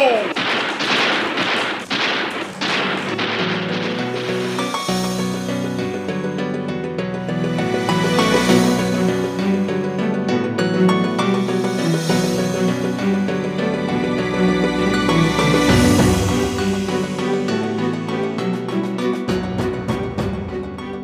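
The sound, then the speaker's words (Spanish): Soldiers fire a rifle volley in a radio drama, several sharp cracks in quick succession at the start, followed by a loud, sustained rumbling din. “Cuando estos están a tiro de fusil, ¡alto! ¡Fuego!”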